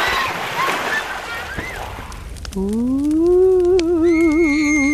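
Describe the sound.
Water splashes and sloshes as people swim at a summer camp. The splashing fills the first half, then a voice holds a long, wavering note.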